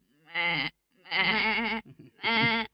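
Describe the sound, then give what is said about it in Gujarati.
A goat bleats three times, loud wavering cries separated by short pauses, the middle call the longest. “આ તો બકરી બેન આવ્યા.”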